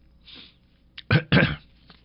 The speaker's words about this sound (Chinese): 打个喷嚏好吧